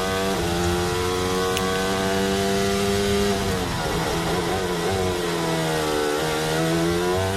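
High-revving Formula 1 car engine heard onboard during a sprint qualifying lap. The loud, continuous, buzzing harmonic whine shifts in pitch as the revs climb and drop, with no voices.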